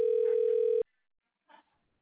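A steady, even telephone tone on hold during a call transfer, held for under a second and then cut off, followed by near silence.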